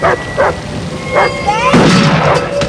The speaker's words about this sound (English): The dog runs off into the night.